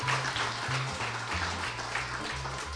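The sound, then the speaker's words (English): Audience applause welcoming Steve Starks, president of the Utah Jazz and Larry H. Miller Sports, on stage: a steady wash of clapping over a low, stepping musical tone, fairly even in loudness throughout. “Please give it up for Steve Starks, president of Utah Jazz and Larry H. Miller Sports.”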